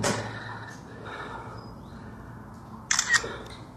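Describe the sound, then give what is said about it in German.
Camera shutter clicks from photos being taken: a few sharp, crisp clicks in quick succession near the end, rising clearly above a low, steady background hum. “ich werde hier mal ein paar Fotos machen.”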